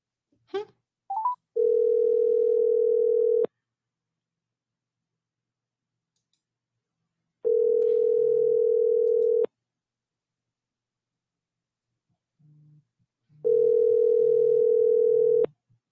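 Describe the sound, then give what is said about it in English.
An unanswered telephone call to a wife's phone rings out as a ringback tone: three long, steady tones separated by silence, preceded by brief dialing clicks and tones. “Wife not answering the phone either.”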